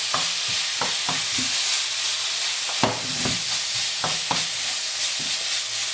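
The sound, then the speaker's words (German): Rice frying in a pan with soy sauce just added, giving a steady hissing sizzle throughout, broken by many sharp scraping strokes as it is stirred; no voices are heard. “Ihr hört das schön zischeln hier.”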